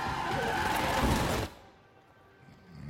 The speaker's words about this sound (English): The SUV smashes its way through the commuter traffic, causing multiple collisions.